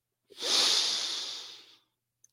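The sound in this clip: One deep breath drawn in, heard alone as a single long, airy hiss that swells quickly and fades over about a second and a half, followed by silence and a tiny click at the end.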